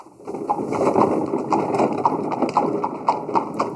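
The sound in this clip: Hooves clip-clop as a horse-drawn carriage passes along a town street in 1919. Many sharp, evenly spaced hoof strikes keep a quick, steady rhythm over a continuous background of sustained tones.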